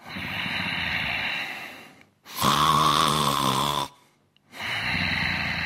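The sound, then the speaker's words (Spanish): A person snoring on cue in three long breaths: a rasping draw, then a louder, rattling, throaty snore, then another rasp, with short silences between them. “Voy a hacerle roncar. Y que eche un poco de babilla.”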